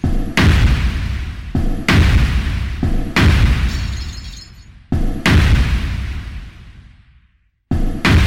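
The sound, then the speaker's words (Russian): Volley of shots and explosions hitting a house: a series of loud, heavy booms, each trailing into a long rumbling decay, with a short silent pause before the final blast. “Все 4 влетели внутрь, и там рванули. Перезарядка. Залп из гнома. 3 выстрела в правую часть дома, 3 в левую.”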